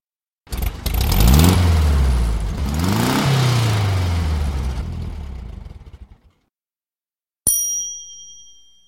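A car engine revs in two rising surges, the pitch sweeping upward each time before the noise tapers off and stops. After a short silence, a single bright ding rings out and fades.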